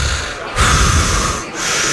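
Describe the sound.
Heavy breathing on air from a man standing behind the host: loud, rough, noisy breaths close to the microphone. A long breath is followed by a second after a short pause.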